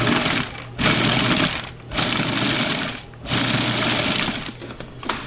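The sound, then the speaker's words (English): A food processor grinds ingredients in pulses: a loud, gritty motor whir that runs in three long bursts with brief pauses between them, with no voices. “All right, I'm going to start grinding this up, pulsing it.”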